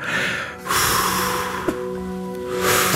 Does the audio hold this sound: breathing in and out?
yes